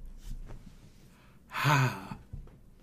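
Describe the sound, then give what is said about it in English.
A single deep breath: a loud, sighing exhale with a slight voiced tone, heard alone after a few faint quieter breath sounds. “Last deep breath for everyone.”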